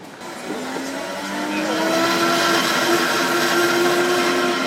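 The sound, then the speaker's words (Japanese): A blender whirs as it crushes fresh grapes and pears for juice at a stall: a loud, steady motor roar whose tone climbs in pitch at the start and then holds, growing slightly louder. “結構いい感じでミキサーされてますよ、 押し潰すやつじゃないよね、砕くやつ”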